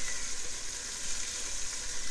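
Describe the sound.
Steak pieces sizzling as they fry in a pan, dropped in one at a time: a dense, steady crackling hiss that stays even in loudness throughout, with no talking.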